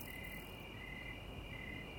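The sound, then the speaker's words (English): Crickets chirping in the grass of a backyard at sunset, a soft, steady high-pitched trill that continues unbroken and alone throughout. “crickets chirp in the grass”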